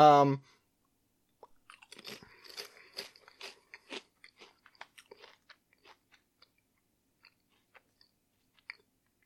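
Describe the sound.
Crisp crunching of a bright orange, cheese-flavored Japanese Lay's potato chip, a many-bite series of irregular, fairly faint crackles after a brief voice at the start.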